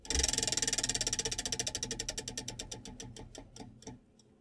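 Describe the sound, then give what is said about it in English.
A spun topic wheel clicks rapidly at first, then its ticks slow and spread apart as it winds down to a stop, many ticks in all. “We're going to get right out of here spinning the wheel. We're going to do spin, topic, conversation, 15 minutes.”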